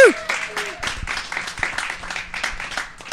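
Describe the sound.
An audience applauds a stand-up comedian and comic book artist as he is introduced, with brisk, dense clapping that holds a fairly even level for a few seconds.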